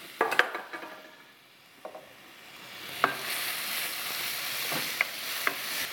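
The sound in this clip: Vegetables fry and get stirred in a pan while cooking down for a shrimp and cheese saganaki. A soft, steady sizzling hiss runs throughout, broken by a few light scraping stir sounds.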